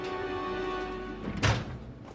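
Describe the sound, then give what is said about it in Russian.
A metal door slams shut with one heavy clang and low thud that cuts through a sustained musical score and then fades. “Она поворачивает голову на стук захлопнувшейся металлической двери.”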